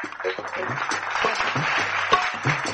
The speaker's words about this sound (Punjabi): ਤੇ ਸਾਡੇ ਬਹੁਤ ਅੱਛੇ ਮਿਊਜ਼ਿਕ ਡਾਇਰੈਕਟਰ ਨੇ ਜੀ, ਜਤਿੰਦਰ ਸ਼ਾਹ ਜੀ, ਇੱਕ ਵਾਰ ਉਹਨਾਂ ਦੇ ਨਾਂ ਤੇ ਤਾੜੀ ਲਾ ਦਿਓ ਜੀ।